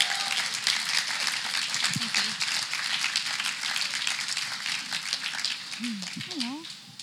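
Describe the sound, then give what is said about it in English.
Audience applause as a guest speaker comes up to share her story at a morning gathering: dense, even clapping throughout, with a voice briefly heard over it, tapering off at the end. “So let's give Renita a hand as she comes up this morning.”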